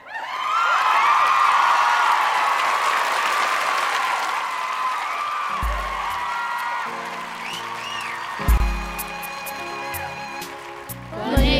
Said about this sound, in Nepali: तालीले स्वागत गरौँ